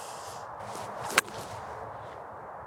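A single sharp crack of a golf ball struck with a sand wedge, hit high toward the flag with a tailwind and taking a divot. One crisp, loud impact stands out over a steady low background hiss.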